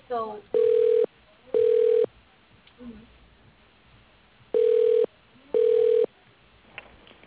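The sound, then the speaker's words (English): A telephone rings back as a call is transferred: four steady mid-pitched tones about half a second each, heard as two pairs with a longer gap between them, thin and narrowband like a phone line. “You are being transferred to L&O Acres.”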